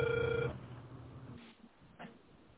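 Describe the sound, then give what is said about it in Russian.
A telephone ringback tone sounds while a call is being dialed. One loud, steady electronic tone plays at the start and cuts off after about half a second, leaving quieter background noise. “Алло, продолжаю дозвон. Не отключайтесь.”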